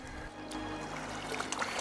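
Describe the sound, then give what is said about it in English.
A solitary tail flaps the water under the setting sun, making soft splashes and watery sloshing with a few light slaps over a low, murmuring wash. “A solitary tail flaps the water under the setting sun.”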